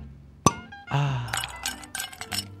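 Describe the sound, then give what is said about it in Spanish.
A bottle and wine glasses clink as a drink is served. One sharp, bright glassy chink is followed by softer clattering and handling noises. “ponemos la botella, saludamos a nuestra productora y de repente te acompañamos y te invitamos a que hagas esto. Mirá.”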